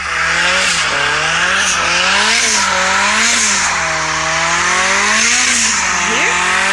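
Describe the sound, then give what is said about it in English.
Four-cylinder engine of a 2017 Mazda MX-5 sports car revving loudly, its buzzing tone swelling up and down in several repeated surges over a steady drone. “I like this 2017 Mazda MX-5. I forgot to mention about the MX-5 is that, well, this is what it sounds like.”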